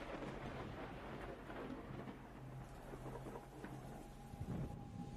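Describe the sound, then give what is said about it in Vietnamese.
Heavy autumn thunderstorm rain pours down in a dense, steady roar, with low thunder rumbling beneath and no letup across the whole stretch. “Ngoài trời đã bắt đầu đổ mưa xuống. Kỳ lạ thật. Trời vào thu, làm gì có những cơn mưa rào sấm sét như thế này đâu.”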